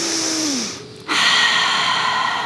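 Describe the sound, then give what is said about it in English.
A slow, deep breath in and out at the close of a yoga session. An airy inhale is followed by a short pause, then a fuller, louder exhale that holds steady to the end, with no talk. “So we'll take a breath in and out.”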